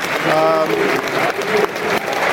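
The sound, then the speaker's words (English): A football stadium crowd applauds as a player is substituted off. The clapping is loud and sustained, with a man talking over it. “Tyler Bury coming in now for Oliver Burke. Good applause, Oliver.”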